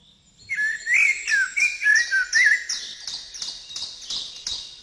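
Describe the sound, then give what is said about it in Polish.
Birdsong of bright, high whistled notes in quick warbling phrases, then many short chirps repeated in a steady rhythm, loud and clear with nothing else behind them. “Wiosna to niezły czas na słuchanie śpiewu ptaków”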